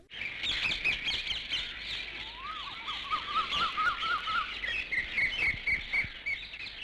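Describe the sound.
Birds chirp and twitter without pause in bright, high calls, with a quick warbling call rising and falling in the middle; the sound is fairly soft, with no voices.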